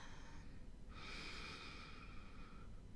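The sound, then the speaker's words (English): A slow, deep inhale during a guided breathing exercise, a steady, soft, airy hiss lasting nearly two seconds, heard alone over faint background noise. “we're going to start by taking a deep breath in”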